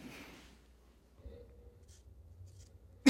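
A pen scratches out writing with faint, soft scribbling strokes over a quiet background.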